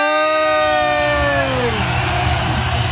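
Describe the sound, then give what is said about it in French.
A sound effect of a crowd cheering wildly, whooping and yelling loudly and continuously. It opens with a sustained tonal cry that slides down in pitch. “Ouais, de la foule. En délire.”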